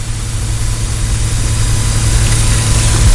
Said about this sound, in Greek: Καθώς τα καράβια αναπτύσσουν όλοι τους την ταχύτητα για να απομακρυνθούν από τη Σμύρνη